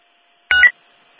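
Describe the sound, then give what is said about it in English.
Touch-tone keypad tones as a telephone number is dialed: one short, loud electronic beep burst lasting a fraction of a second, with near silence before and after. “They gave us the phone number for him, so we'll try it.”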